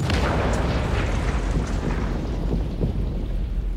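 A bomb explosion's heavy, sustained low rumble roars loudly and steadily through the whole stretch, with no distinct separate blasts.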